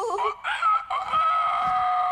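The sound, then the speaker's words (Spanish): A rooster crows on a farm, giving a loud, drawn-out, wavering call in a few strained segments. The final note holds long and high. “¡Ay! Ese gallo ha cantado toda la mañana.”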